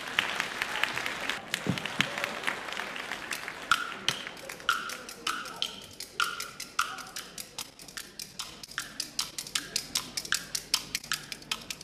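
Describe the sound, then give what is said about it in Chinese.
Audience applause welcomes a young kuaiban performer before a traditional tongue-twister piece; faint clapping rises, then settles into steady, evenly spaced tapping clicks. “咱们掌声有请”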